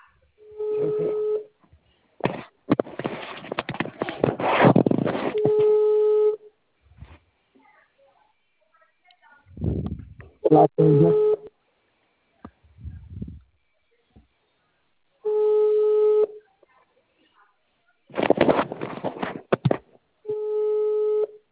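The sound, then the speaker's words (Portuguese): Telephone call tones sound while a call is placed: steady electronic beeps that recur several times across the stretch, alternating with bursts of people talking. “Deixa eu ligar para ele aqui, porque ele está na ligação.”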